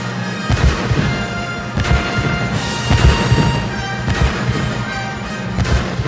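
Heavy artillery booms used as percussion in orchestral music by Tchaikovsky: four deep, roughly evenly spaced blasts over a loud, sustained orchestra.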